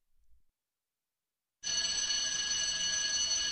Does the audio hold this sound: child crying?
no